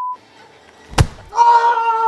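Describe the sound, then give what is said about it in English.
A punch sound effect of a Ted Danson character hitting a ghostwriter hard in the face, one sharp, heavy smack in the middle, framed by brief tonal sounds before and a sustained tone after. “And that punch was the sound of the Ted Danson character hitting the ghostwriter really hard, maybe breaking his nose.”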